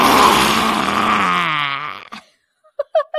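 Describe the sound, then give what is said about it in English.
A loud, audible exhale pushed out with the tongue stuck out, a long groaning breath that sinks slightly in pitch and trails off, followed by a few brief vocal sounds. “Take a big inhale. And then stick your tongue way the F out and be audible with your exhale like this.”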